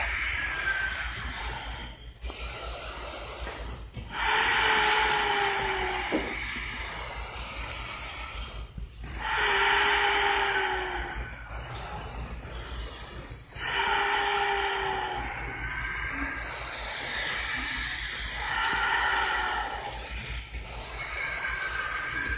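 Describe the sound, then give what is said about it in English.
Slow deep breathing during a yoga session, with long, loud, hissing inhales and exhales that repeat in a regular cycle of several breaths, each rising and easing off. “Fill this room with your breath.”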